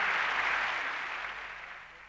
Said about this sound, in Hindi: शुक्रिया, शुक्रिया आपके इन भरपूर तालियों का।